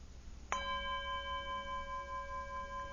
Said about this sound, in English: you hear that, I'm assuming. The perception is when the mind goes, oh, bell.